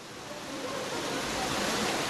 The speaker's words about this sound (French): Il y en a un qui a l'air de prendre sa douche en dessous le cours d'eau